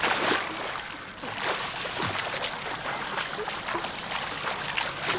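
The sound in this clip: A learner swimming in a pool makes steady, moderately loud splashing and water churning, with rhythmic surges from repeated strokes that continue throughout, with no voices.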